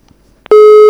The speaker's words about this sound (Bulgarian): Звъни.